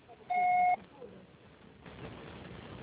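A voicemail beep sounds once before message recording: a short, steady electronic tone standing alone, followed by faint line noise.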